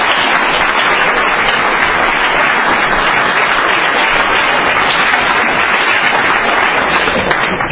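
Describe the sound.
Loud, dense applause from an audience welcoming a speaker at an evening speaker meeting, a steady unbroken wash of clapping that holds at full strength throughout.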